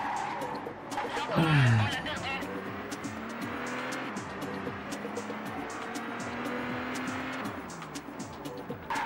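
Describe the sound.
A Renault Laguna screeches into a skid in a racing video game: a loud tire squeal with a falling whine near the start, then a steady revving engine drone, with people talking over it.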